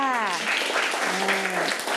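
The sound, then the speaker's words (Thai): Schoolchildren clap for a classmate in class, a steady burst of many small hands that follows a woman's voice and carries on beneath her talking. “ว้าวปรบมือกับเพื่อนค่ะ”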